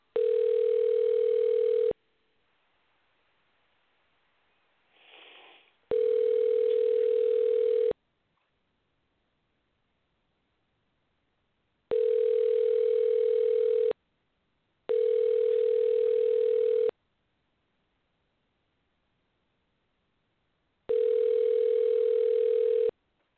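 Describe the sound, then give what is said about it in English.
Telephone line tone while a number is dialed: five steady two-second beeps separated by silent gaps of uneven length, with a faint brief noise between the first two. “I'm going to go ahead and dial his number right now and see if I can get him on.”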